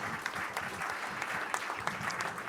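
Applause from an audience honoring competition participants at a prize moment, a steady, dense patter of clapping that holds an even level throughout.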